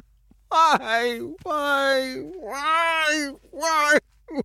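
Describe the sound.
A man sobs in drawn-out, wavering wails while crawling toward an object, four cries separated by short catches of breath, the pitch rising and falling within each.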